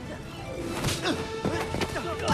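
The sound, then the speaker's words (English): Whacking impacts of a kick knocking a man out in an action-film fight aboard a boat, a few sharp thuds and swishes over dense, busy background sound. “She kicks him again, knocking him out.”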